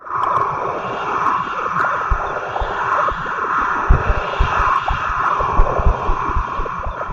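A time machine, a cheap Japanese replica, starts up with a steady droning mechanical hum over a dense low rumbling throb. The sound holds at an even level with slight swells and no voices.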